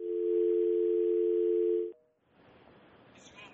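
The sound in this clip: A telephone dial tone after a caller is disconnected: a loud, steady, unbroken tone holds for about two seconds, then cuts off abruptly into faint line hiss and low noise.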